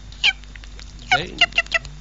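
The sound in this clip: A person vocally imitates a bird call: a short high chirp, then a falling squawk-like cry and a quick run of sharp, high chirps.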